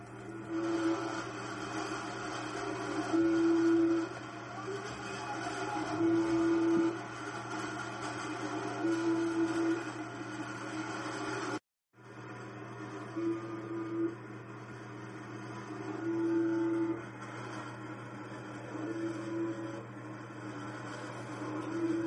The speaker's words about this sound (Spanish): un vídeo donde se puede ver y se puede escuchar el funcionamiento de una de las emisoras de números más famosas, el Zumbador